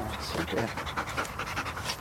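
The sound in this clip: Rapid, steady panting from a female Belgian Malinois, a police canine trained for search and rescue, with many quick breaths following one another in an even rhythm.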